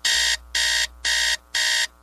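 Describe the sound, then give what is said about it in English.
An alarm clock ringing in four loud, even bursts of bright electronic tone with short silent gaps between them, over a faint low hum. “These days, a lot of cars are so boring, they should come with a snooze alarm.”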